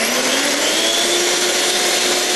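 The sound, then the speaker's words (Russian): An electric mixer whips foam for coffee, giving a steady, loud whirring motor drone that holds evenly from start to finish with no talking. “включаем миксер, и миксером надо эту пенку взбить.”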